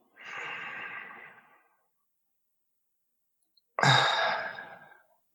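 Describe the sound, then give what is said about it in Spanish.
Two long, deep breaths during a guided breathing exercise: an airy, breathy rush, a pause of about two seconds, then a second, sharper breath that starts abruptly and tails off. Both are moderately loud, with no talking. “Vamos a seguir nuestra rutina, ya sin guía, vamos a inhalar.”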